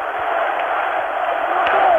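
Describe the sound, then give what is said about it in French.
A large crowd in Algeria cheers and acclaims General de Gaulle, a dense, continuous roar of many voices that stays loud and even, with a muffled, narrow tone. “Au balcon du gouvernement, là même où 3 semaines plus tôt on acclamait son nom, il déclare « Entendez la foule qui l'acclame, de Gaulle, de Gaulle !»”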